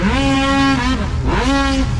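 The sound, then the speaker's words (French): Snowmobiles racing on water at a provincial championship in Frampton, an oval-course event: a loud, continuous high-revving engine whine whose pitch dips and climbs again twice. “course de motoneige sur l'eau à Frampton”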